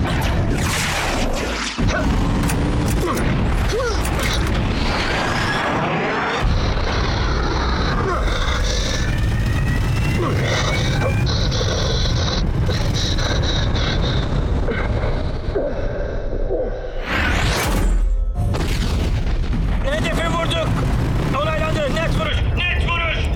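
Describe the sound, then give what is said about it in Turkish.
Explosions from a bomb dropped on a locked target in a video game, loud and rumbling within a dense, continuous mix of engine noise and game effects, with people talking over it throughout. “Tamamdır, kilitlendim. Hedef belirlendi, bomba atıldı.”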